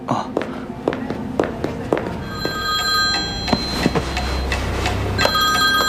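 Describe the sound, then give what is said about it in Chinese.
A telephone rings during a call for staff at a restaurant private dining room: a steady, bright ringing tone sounds through the second half, preceded by a series of sharp clicks, with some faint talk around it. “哦，不好意思，我接个电话。”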